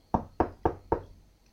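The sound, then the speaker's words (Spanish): Knocking on an office door: four sharp, even raps in steady rhythm, each with a short decay, heard alone with no voices. “Pedro llama a la puerta del señor Martínez.”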